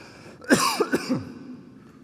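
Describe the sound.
A short fit of coughing: one sharp, loud hack followed quickly by a few smaller, rougher coughs, then quiet.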